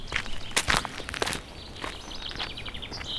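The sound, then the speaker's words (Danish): Footsteps crunch along a raised path above a lake, a run of soft, uneven steps with gritty scuffs, fairly faint and heard without talk. “Nu går jeg her langs Fussing Sø.”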